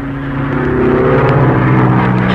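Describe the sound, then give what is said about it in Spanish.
Steady engine drone of a small propeller plane flying in a circle over snow-capped volcanoes, a low humming roar that holds even throughout and swells slightly louder partway through. “La pequeña avioneta trazaba un círculo volando sobre los volcanes.”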